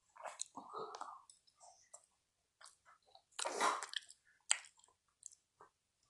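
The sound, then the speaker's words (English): Chewing and eating store-bought blueberry pie: soft, wet mouth sounds and small sticky clicks and smacks come in irregular bursts, mostly faint with a louder squishy chew midway, separated by short quiet gaps. “This blueberry pie is so good. I got it from King's, which is our local grocery store.”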